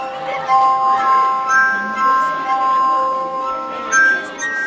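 A glass harp played on dozens of wine glasses gives sustained, ringing tones at several pitches, overlapping and gently swelling and fading.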